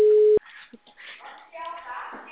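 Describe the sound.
Telephone line tone while calling a client: a single short, loud, steady beep cuts off abruptly, followed by faint muffled sounds and low voices.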